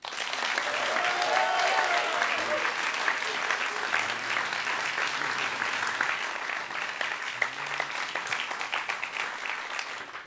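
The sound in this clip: Sustained applause from a concert audience greeting the musical director of a tribute concert, a steady, even wash of many hands clapping that holds at the same level for the whole stretch.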